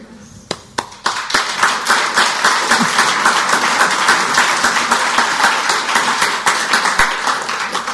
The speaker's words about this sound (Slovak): Za chvíľu ten potlesk